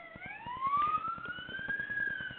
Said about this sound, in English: I am having an ambulance go by, so hang on for a minute,